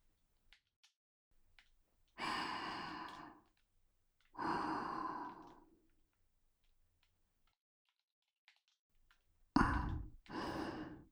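Deep breathing, heard as two long, slow, airy breaths a couple of seconds apart, then a pause, then two shorter, sharper breaths close together, the first of these the loudest.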